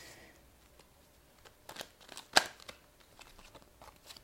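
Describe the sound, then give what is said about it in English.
Tarot cards are taken out of a deck and laid down: faint papery rustles and soft slides, with a short cluster of crisp snaps and taps in the middle. The handling is quiet, with no speech. “So, let me actually just get all these cards out first, and then I'll tell you what we have here.”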